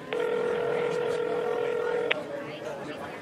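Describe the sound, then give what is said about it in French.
A telephone tone while calling an emergency number: one steady electronic tone holds for about two seconds and ends with a click, leaving quieter background noise. “J'appelle le 911.”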